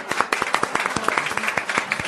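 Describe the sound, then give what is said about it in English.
Applause from an audience gathered at a cafe event, a dense patter of many hands clapping steadily throughout, moderately loud with a faint voice underneath. “Give yourselves a round of applause for showing up here at Egg Harbor Cafe.”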